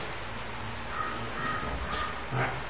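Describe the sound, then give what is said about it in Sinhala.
Crow cawing, a few faint caws heard over a steady background hiss. “අහුන ගමන් හිතන්න පුළුවන් අන්න කාක්කේ කෑ ගහ.”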